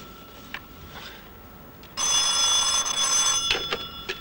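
A telephone bell rings in one loud, bright, continuous burst that starts abruptly after a quiet stretch marked by a few faint soft knocks.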